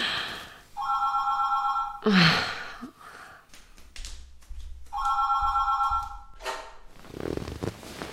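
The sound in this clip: An old-style telephone bell rings in two separate bursts, bright and metallic. Breathy gasps and sighs from a person come between and after the rings.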